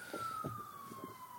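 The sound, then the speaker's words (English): A faint emergency vehicle siren on Washington DC city streets, a single thin wail falling slowly in pitch throughout, with soft low murmuring underneath. “Oh man, those sirens in the background, the mean streets of DC over here.”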